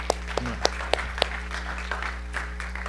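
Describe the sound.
A church audience at Liberty First Baptist Church applauds to welcome guests, a moderate wash of clapping with a few sharper claps standing out early on, over a steady low hum.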